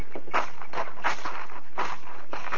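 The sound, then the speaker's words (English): Footsteps walking out toward a gate, many steady, evenly spaced steps in an unbroken rhythm, each a soft crunching thud. “I'll walk you to the gate, Marshall.”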